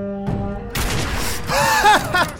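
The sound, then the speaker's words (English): Gunfire in a video game, with loud booming blasts cutting through a sustained tonal drone, followed by howling creature cries that slide down in pitch. “I shot him in the head as he was doing his little howly thing.”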